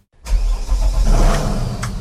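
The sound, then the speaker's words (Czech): A river police motorboat setting off on the Slapy reservoir: after a short silence, the engine catches and runs as a loud, steady, low rumble that continues to the end. “S vedoucím poříčního oddělení Slapy Davidem Bernardem teď tedy vyjíždíme na člunu”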